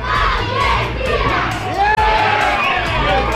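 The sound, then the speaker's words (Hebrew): Dozens of residents gathered by candlelight for a joint viewing cheer an Argentina goal, a loud mass of shouting and chanting voices that drops out for an instant midway before surging back just as strongly. “באור הנר עשרות תושבים התאספו לצפייה משותפת ולחגיגות הניצחון. כתבתנו שקד ויקינסקי שמעה אותם. הנה גול של ארגנטינה.”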